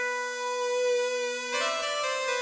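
The main additive synth part plays solo as a sustained harmonic tone that shifts to a brighter, changed note about halfway through, with no other instruments.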